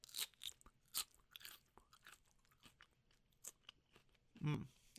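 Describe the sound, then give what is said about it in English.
Crunchy chewing of raw snow peas, a quiet series of many sharp, crisp bites and crunches in an irregular rhythm, with a brief voice near the end. “Can you just let the listeners hear the sound of you eating? Let's go with the peas first. Oh, the peas. Okay. Snow peas, to be exact.”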